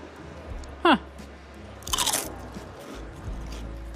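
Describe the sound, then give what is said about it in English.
A crisp crunch as someone bites into a steak-flavoured potato chip: a short, bright burst over a low background hiss. “Yeah, this potato chip tastes like steak.”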